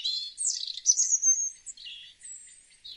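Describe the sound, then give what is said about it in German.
Birds chirping in a steady, high-pitched twitter of varied short calls and trills, louder in the first half and softer toward the end, with no voices. “Das Zwitschern um ihn herum wurde langsam lauter.”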